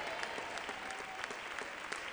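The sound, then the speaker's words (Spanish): A church audience applauds in praise of God during a service: continuous, fairly quiet clapping from many people with small scattered accents and no clear gaps. “Si le va a dar un aplauso al Señor, ¿cuántos todavía tienen deseo de alabar a Dios en este día?”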